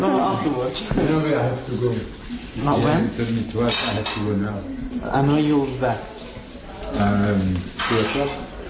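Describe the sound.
Cutlery and dishes clink in a kitchen as people eat lunch, with scattered light metallic taps and clatter mixed under continuous speech.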